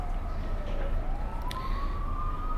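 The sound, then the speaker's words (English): Fire truck sirens wail as they race past, the tone dipping and then climbing slowly and steadily over a low rumble of road traffic. “fire trucks are racing past you.”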